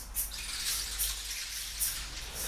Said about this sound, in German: und ein Wasserfall stürzt vor dir herab.